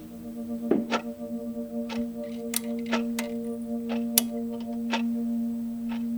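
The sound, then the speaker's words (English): A clock ticking at night gives a series of sharp, dry ticks, slightly uneven in spacing, over a steady low tonal hum. There is no talk. “The clock gets really loud at night.”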